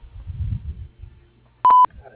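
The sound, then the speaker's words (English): A single short, loud electronic beep from an answering machine marks the start of message recording, coming after a stretch of faint, low murmur. “Please leave your name, number, and a brief message after the beep”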